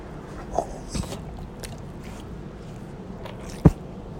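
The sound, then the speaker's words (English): A golden retriever chewing: a few soft, wet crunching bites over a steady low background hiss, with one sharper, louder bite near the end. “it's not the faucet. It's not a raccoon. It's just my golden retriever.”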